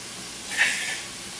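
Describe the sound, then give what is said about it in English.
Hissing sizzle of food frying in a pan that is being shaken, a soft brief swell of searing noise that rises and then fades back to a low hiss, with no voices. “You just keep shaking the pan around so it doesn't stick.”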